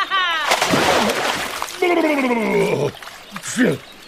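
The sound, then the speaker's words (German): A big, loud splash of water bursts out as a rushing wash of noise lasting about a second, between stretches of high, bright, sing-song voices talking. “Riesenklatscher! Oh, daneben! Ich bin noch nicht nass. Aber gleich!”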